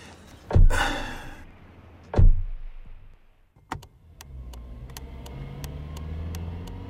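A car door shuts with two heavy thunks, then the engine starts and settles into a low, steady rumble as the car drives off, with a series of sharp, evenly spaced clicks over it.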